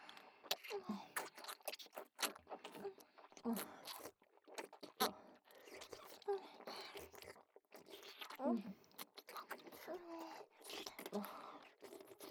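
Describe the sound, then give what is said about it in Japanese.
Wet licking and sucking sounds as two people lick candy, many quiet, irregular smacks and small clicks that continue throughout. “飴って大好き。兄様とこうして二人で舐める飴は、なお美味しいわ。”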